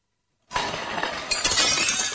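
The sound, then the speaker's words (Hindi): A glass plate, thrown from a distance in anger, shatters with a sudden loud crash, then a bright, sustained spray of breaking shards, with a second sharp burst of tinkling glass partway through. “तभी दूर से कांच की plate आकर टूटती है।”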